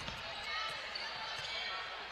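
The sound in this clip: A basketball is dribbled during a girls' high school game, with a few faint, irregular bounces under a steady wash of background noise.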